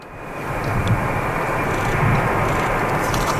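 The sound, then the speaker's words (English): A passenger plane lands at the airport in Bagotville, its engines producing a broad, steady roar that swells slightly and then holds loud and even, with no voices. “That's the sound of the plane carrying four Canadians from the Canary Islands landing at the airport in Bagotville.”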